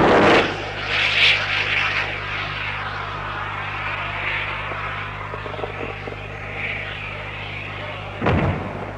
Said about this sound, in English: The lightweight anti-tank 130mm guided missile, known as the INTAC.